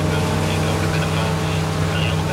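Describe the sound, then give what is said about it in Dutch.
A rigid inflatable speedboat runs at full power out of Eemshaven harbour. Its engine gives a steady, loud roar over a low droning hum, with constant rushing noise throughout. “met een soort speedboot, een rib, een rubberboot die niet leegloopt, zijn we volle kracht aan het varen de haven van Eemshaven uit”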